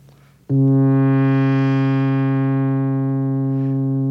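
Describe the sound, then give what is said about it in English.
An envelope generator opens and then closes a synthesizer filter on one sustained low note. The tone grows brighter after the sharp attack, peaks, then slowly mellows as the filter closes, while the pitch holds steady throughout. “That opening and closing of the filter was done not by me, but by the envelope generator.”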